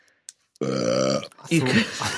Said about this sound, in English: for about the last 10 seconds trying to deal with that belch in a sort of discreet way, and then he just didn't bother.